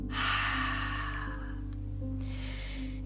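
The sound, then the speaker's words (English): Air exhaled fully out of the lungs during a calming three-part breathing exercise: a long, breathy rush that tapers off, then a shorter breathy sound, over a low, steady hum. “Exhale all your air out.”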